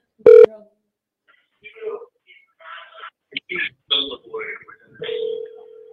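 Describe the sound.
A telephone call being dialed on a radio call-in show: a short, loud tone, then a series of brief dialing tones, ending in a steady, sustained ringing tone.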